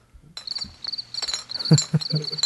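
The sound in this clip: Crickets chirp in rapid, repeated high-pitched pulses that continue steadily throughout, with a few low thumps underneath.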